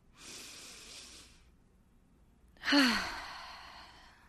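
Slow deep breath during a breathing exercise: a steady, soft airy inhale, a short pause, then a louder exhale that turns into a voiced sigh, falling in pitch before trailing off.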